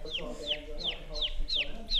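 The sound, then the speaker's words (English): A young farm chick, hatched with a group of others, chirps in six high, sharply falling peeps at a steady, even rhythm over low background noise. “I think he's chirping to go back with his friends.”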